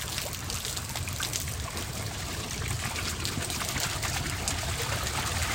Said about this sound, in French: Ce bruit. Ça n'est pas du feu. Regardez, c'est de l'eau. De l'eau qui va remplir la cave pour noyer la poudre.